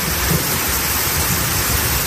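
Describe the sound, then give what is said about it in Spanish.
Torrential downpour of rain over a city in Seville, a dense, steady roar of hiss with a low rumble underneath, unbroken and loud for the whole moment. “Trombas de agua como esta que caía este sábado en Sevilla, que dificultaba la circulación en algunos puntos, o en Melilla.”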